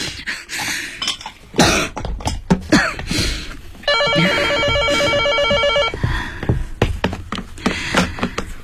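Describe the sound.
A telephone rings with an incoming call, a steady trilling electronic ring lasting about two seconds mid-clip, surrounded by coughing and throat clearing before and after.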